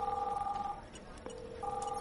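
A telephone rings with an incoming call: two bursts of steady electronic ring tones separated by a short gap, fairly faint.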